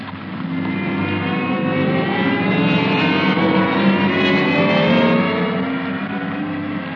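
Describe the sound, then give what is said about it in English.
An escalator running in a store gives off a steady, loud mechanical hum and a droning motor whir that hold evenly throughout, with no voices. “Well, these escalators are all right. Nice, comfortable ride.”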